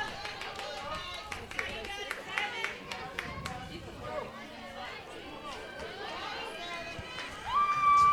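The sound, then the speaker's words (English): Spectators holler for the Bevill State batter at a college women's softball game. A steady mix of shouts and crowd chatter runs throughout, with a commentator talking over it. “Here's some folks hollering for Riley Phillips, who is the batter for Bevill State.”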